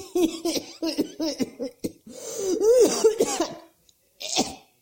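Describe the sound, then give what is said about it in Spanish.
Cough of a longtime former smoker, a fit of many harsh, chesty coughs with a voiced, laugh-like edge, then a pause and one final burst. “esa tos no es de corona, ¿eh? Yo toso porque fumé mucho toda mi vida. Y bueno, y ahora me quedó la tos de cuando fumaba.”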